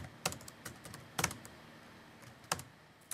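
Typing a letter at a desk for secretarial office work: faint clusters of clicking keystrokes come in a few short bursts separated by pauses.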